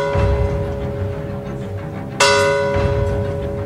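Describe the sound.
A church bell strikes midnight by a lagoon, its steady ringing tone sustained throughout and broken by one loud, bright new strike partway through that rings on alone.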